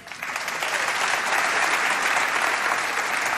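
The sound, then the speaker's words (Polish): A theatre audience applauds at a gala in a steady, dense wash of clapping that rises quickly and holds loud and even, with no speech over it. “To raz jeszcze brawa.”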